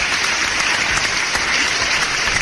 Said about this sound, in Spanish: El aplauso es para ustedes.